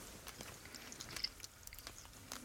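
Faint chewing of a roughly two-centimetre piece of cheese and a similarly sized dried strawberry, eaten with the fingers; soft, irregular mouth noises and small crunches, quiet throughout.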